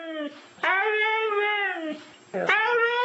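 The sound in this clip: A dog makes drawn-out, talking-like vocal sounds instead of barks, answering its owner. There are a few wavering, whiny cries with a clear harmonic voice, separated by short dips.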